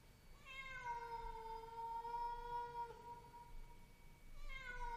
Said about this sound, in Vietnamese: tôi nghe có tiếng mèo kêu ở dưới tầng 1. Tiếng mèo kêu trong đêm, nghe não lòng kinh khủng.